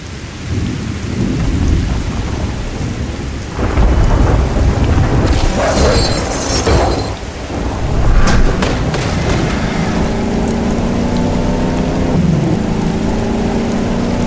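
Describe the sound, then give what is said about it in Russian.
Heavy rain pours through a thunderstorm over a city, with deep thunder rolling in and a sharper crack midway while the dense downpour stays loud throughout. “Шторм накатывал на город. Молнии били в железную башню на вершине Кальварии ежеминутно. Яркие всполохи слепили глаза. Гром заставлял дребезжать стекла самоходного аппарата.”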